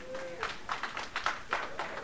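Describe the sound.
Congregation clapping hands in a church service for a man being honored, a run of sharp, evenly spaced claps in a steady rhythm with a voice at the start.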